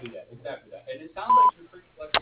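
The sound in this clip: A voicemail beep tone marks the end of a greeting: one steady mid-pitched beep lasting about a fifth of a second, with talk before and after it.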